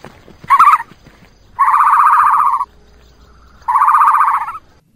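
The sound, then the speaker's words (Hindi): Calls credited to an ostrich, the large flightless bird: three loud, harmonic hooting bursts, one short and then two longer sustained ones, separated by quiet gaps. “अरे परेशान ना हो, ये कोई जानवर नहीं बल्कि एक परिंदा है।”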